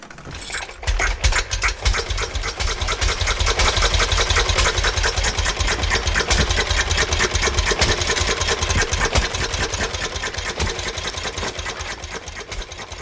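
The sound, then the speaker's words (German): Rattling of an early single-cylinder engine, about half a horsepower at 600 rpm, fitted to a motorized bicycle: a loud, rapid, evenly paced mechanical clatter that starts after a moment and runs on steadily, easing slightly toward the end. “Das Knattern des motorisierten Velozipeds muss den Zeitgenossen absonderlich, nicht wenigen unheimlich vorkommen.”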